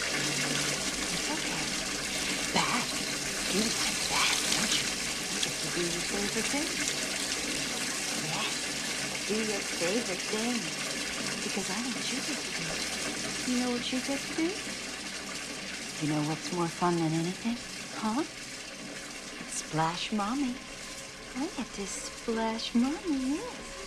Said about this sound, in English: As Dana undresses Oscar, the water flowing from the tap stops and is replaced by a stream of gloopy slime.